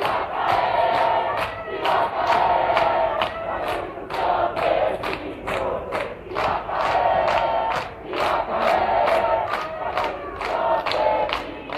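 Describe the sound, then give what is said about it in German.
A protest crowd chants in the streets of Santiago, Chile, against the Pinochet-era constitution. Many voices shout in unison to a steady beat, with regular sharp claps or thumps keeping time throughout. “So klang das vor ein paar Jahren noch auf den Straßen von Santiago. Se va a caer la Constitución de Pinochet. Das heißt in etwa, die Verfassung von Pinochet wird stürzen.”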